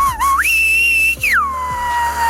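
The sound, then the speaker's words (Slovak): A human whistler sounds a colour word in a whistled language: one clear whistled tone starts low, rises to a high held pitch, breaks briefly, then glides down to a lower tone that trails off gently. “vie si takýmto spôsobom pískať. Prvá nahrávka je to farba. Aká je to farba, prosím pekne?”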